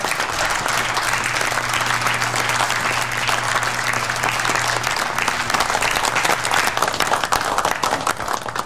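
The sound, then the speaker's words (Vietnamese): An audience applauds after a presentation with sustained, loud, dense clapping that stays even from start to finish, over a faint low hum. “Mọi người vỗ tay lớn lên đi nào. Nếu làm tốt thì phải khen ngợi họ mới đúng chứ.”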